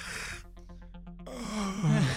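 A person vocally imitates a yawn: a breathy, gasp-like intake gives way to pulsing voiced sounds, then a drawn-out, groaning tone that wavers and dips in pitch at the end.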